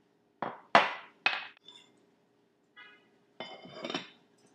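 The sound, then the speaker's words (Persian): A utensil clinks against a glass bowl while lukewarm water is mixed with sourdough powder and sugar: a few sharp, bright clinks, then softer scattered clinks and rattles, all quiet with no talk. “تو مرحله اول آب ولرم رو با پودر خمیر ترش و شکر مخلوط میکنیم، میذاریم حدود 3 دقیقه بمونه.”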